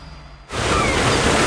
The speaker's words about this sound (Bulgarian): Почивка, плаж, море, лятото зове.